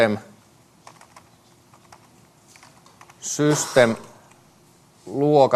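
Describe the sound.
Soft, quick keystrokes on a computer keyboard as code is written, a loose run of many light clicks, followed by two short bursts of a voice speaking.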